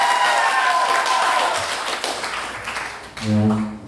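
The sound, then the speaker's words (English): Audience applause and clapping kept going to fill time before a guest arrives, a sustained patter of hands that is strongest at first and gradually thins and softens toward the end. “Applaud or something. Fill the time. He's not down here yet. Keep clapping. Keep it coming.”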